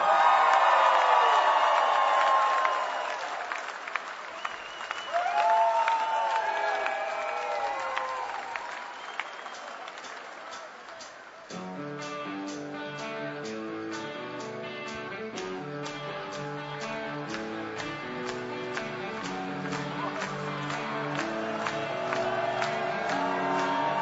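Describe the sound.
Audience cheering and applause with whoops and shouts for a band at an anniversary concert, loud for about ten seconds and then easing off as the band begins playing music.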